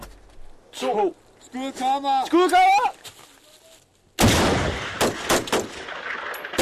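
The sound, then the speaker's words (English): Gunfire from a platoon's live-firing military exercise in North Denmark: voices are heard first, then a loud, dense run of sharp, rapid shots fills the final couple of seconds. “A platoon's on its first live firing exercise in North Denmark.”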